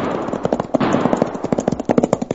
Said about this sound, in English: There are some shots, the kind I was talking about.